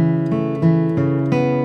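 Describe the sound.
Banjo forward roll picked with an upstroke on the open fourth string and a downstroke on the fifth, giving bright, ringing plucked notes in a quick, even succession.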